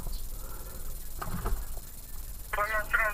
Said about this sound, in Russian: Вот он перезвонит.